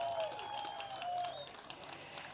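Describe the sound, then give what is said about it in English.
Audience applause rises for young dance performers from a community cultural association on stage, a dense, steady wash of clapping with some higher crowd noise mixed in, fading slightly toward the end. “Give them another round of applause.”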